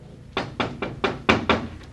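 Six firm knocks on a home's front door fall in a quick, slightly uneven rhythm, followed by a faint final tap, with no voices over them.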